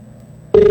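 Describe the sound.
A telephone signals an incoming call on a phone-in line: a loud, steady electronic tone cuts in abruptly after a quiet moment and holds to the end.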